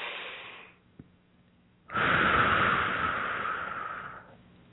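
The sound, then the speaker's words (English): Deep, slow breathing during a guided meditation, with one long, steady, airy rush of breath after a brief quiet pause and the faint tail of an earlier breath at the start. “Okay, two more nice deep breaths here.”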